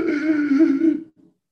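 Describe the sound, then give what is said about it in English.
A very deep breath caught on a sensitive microphone, a low, voiced, groaning exhale lasting about a second, followed by a short, faint trailing breath. “Are you okay, Mr. President? That was a very deep, deep breath.”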